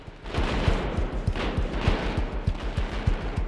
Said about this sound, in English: Their attention then becomes focused on an intense exchange of fire as Tommy runs away down a short street behind the barricade.